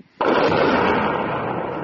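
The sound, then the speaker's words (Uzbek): Explosion near Bakhmut in war footage: one sudden loud blast bursts in, then a dense, roaring rumble holds almost steady to the end. “Ukrainaning 93-chi mexanizatsiyalashgan brigadasi Bakhmut atrofidagi bir nechta portlashlar aks etgan videoni e'lon qildi.”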